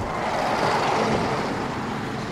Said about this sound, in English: The bus drives away